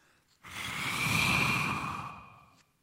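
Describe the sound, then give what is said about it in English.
A long, forceful exhaled breath that demonstrates Jesus breathing on the disciples. It swells to a soft rushing peak and fades over about two seconds, alone with no talk. “Note the next phrase in verse 22. It says, he breathed on them. Let me demonstrate what that means.”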